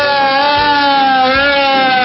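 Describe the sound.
A police siren sound effect rings out as a loud, steady tone rich in harmonics, wavering slightly in pitch and sounding without a break for the whole clip, with no voices.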